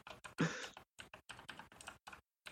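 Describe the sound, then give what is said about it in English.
Keyboard typing as notes are written down: a quick run of clattering keystrokes in short bursts with brief pauses, fairly faint and with no talk. “Sorry, I'm writing down my movie scale.”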